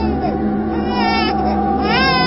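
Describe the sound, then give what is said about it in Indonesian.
A baby cries in loud, wavering wails that bend up and down in pitch, over a steady low drone. “terdengar suara bayi menangis. Jelas terdengar dari arah pojok ruangan deh ini.”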